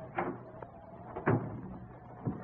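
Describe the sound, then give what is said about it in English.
A house's front door opens on a snowy night in Coventry, Connecticut, with a few soft wooden thuds and knocks spread over about two seconds, each brief and low. “Snow was falling as he opened the front door.”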